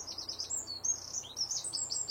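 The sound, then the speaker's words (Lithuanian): Northern lapwings calling in a river delta: faint, high, slurred whistled calls repeat many times in quick succession over a low, steady background hiss. “Pempės.”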